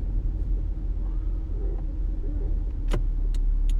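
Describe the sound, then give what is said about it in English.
A car drives on the road with the driver at the wheel, a loud, steady low rumble of engine and road noise throughout, with a few brief clicks near the end. “I'm out here driving. Driving and podcasting. Hands free.”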